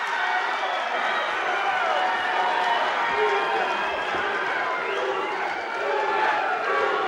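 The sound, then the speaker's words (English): Crowd cheering and applause greet wrestler Hacksaw Jim Duggan at a wrestling event: a loud, steady roar of many voices and clapping that runs the whole way through without a break. “You can hear it for yourself. Hacksaw Jim Duggan. Can there be any doubt about that applause?”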